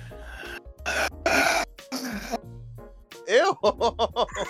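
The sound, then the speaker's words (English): Heavy breathing into a microphone: a few loud, rasping breaths close to the mic, then a person starts talking. “Bro, back up from the mic, right? Just taking a breath.”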